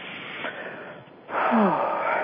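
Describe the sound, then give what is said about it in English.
Deep breath taken when a guided meditation asks listeners to breathe in and let go: a soft, airy inhale, then a louder, fuller exhale that holds steady to the end. “So when you're ready, you can just take a deep breath in and let that go.”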